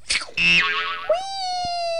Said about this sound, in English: I just bounced off of his chip.